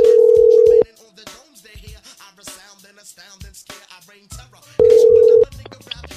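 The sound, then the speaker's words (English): Ringback tone of an outgoing telephone call: two steady, loud buzzing tone bursts, one at the start and one near the end, with faint, muffled voice-like sounds between them. “All right. Let's call the chick.”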